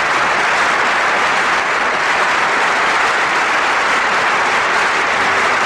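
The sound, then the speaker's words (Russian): Dense, sustained applause from a concert hall audience before a song begins, steady and loud throughout with no break or voices standing out. “И аплодисменты в зале обычно звучат уже перед началом исполнения.”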